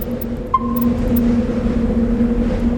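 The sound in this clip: The Mako, an armored vehicle in a video game, rolls along with a steady low engine drone and humming tones. A brief high beep sounds near the start, and a few faint high clicks come above the rumble.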